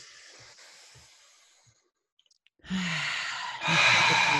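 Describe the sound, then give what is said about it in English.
A long, audible inhale is taken during a guided group breathing exercise. After a quiet pause, a breathy rush of air starts and grows louder toward the end. “Let's everybody take a big inhale together.”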